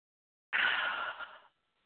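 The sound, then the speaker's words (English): A single deep breath taken during an emotional tapping exercise: a soft, airy rush of breath lasting about a second, quiet and alone. “I take a deep breath.”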